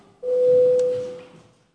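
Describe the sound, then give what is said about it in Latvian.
A parliamentary voting signal sounds before a vote in the chamber: one steady, mid-pitched electronic tone held for under a second, then trailing off smoothly into quiet. “Lūdzu zvanu, balsosim par likuma projekta grozījumi likumā par akcijas nodokli atbalstīšanu otrajā lasījumā. Lūdzu balsošanas režīmu.”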